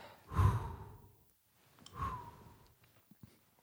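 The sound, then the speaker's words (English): Two deep breaths out, each a soft, breathy whoosh that swells and fades, separated by a short pause, followed by a few faint small clicks. “And breathe.”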